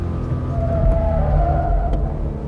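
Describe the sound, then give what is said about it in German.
Engine of a car accelerating through the final left-hand curve of a test track at about 5000 rpm and roughly 130 km/h, a steady, loud roar with heavy road rumble and a whining engine note underneath. No talk. “Das Fahrzeug geht durch die letzte Linkskurve, beschleunigt. 5000 Touren zeigt der Tourenzähler im Moment”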